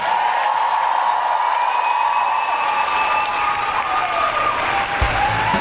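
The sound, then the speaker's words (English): An audience at a live comedy show applauds, a loud, dense and steady wall of clapping that holds at an even level for the whole stretch, with crowd noise mixed in. “Bigger applause for Celia, Geraldine, our whole audience.”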